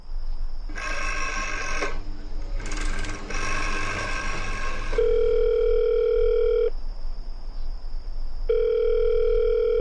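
Telephone line tones sound while a call to headquarters is connected: two bursts of harsh, buzzy signal, then a steady mid-pitched tone that sounds twice in long stretches with a pause between, with no voices.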